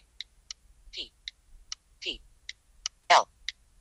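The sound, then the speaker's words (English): Sharp, crisp keyboard clicks as a search word is typed on a computer keyboard, arriving one by one in a steady, evenly spaced series. Short pitched blips sound between a few of the keystrokes. “So I'm going to type Apple.”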